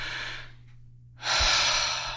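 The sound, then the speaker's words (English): A person takes a deep breath in and lets out a slow exhale: two soft, breathy rushes separated by a short silent pause, the second longer and fuller than the first. “just breathe. Deep breath, and let it out.”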